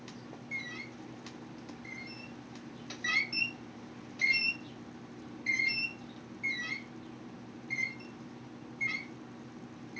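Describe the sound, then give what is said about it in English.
A damaged hanging sign that has fallen and dangles loosely squeaks in a series of short, thin squeals at irregular intervals. The squeaks are fairly faint over a low, steady hum. “It's time to get a new sign, probably. Like, not just the fact that it fell and it's just hanging by a thread, but the fact that it squeaks.”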